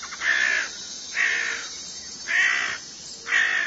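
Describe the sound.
Crows caw four times, each call a loud, harsh, drawn-out cry separated by short pauses.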